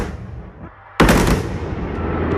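A firework show fired from an electronic firing console: after a low rumble, a sudden loud blast hits about a second in, then gives way to a sustained roar and crackle that lingers to the end.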